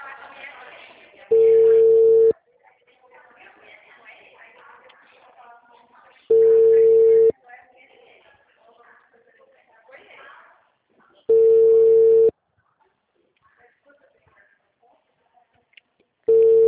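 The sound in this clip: Ringback tone of an outgoing telephone call: four loud, steady, mid-pitched beeps about a second long, evenly spaced roughly five seconds apart, with faint background sound between them and the last beep cut off.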